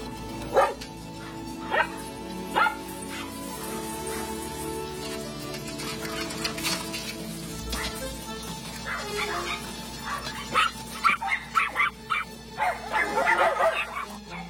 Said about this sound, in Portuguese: Por que estão latindo? Porque são cães. Eu sei que são cães.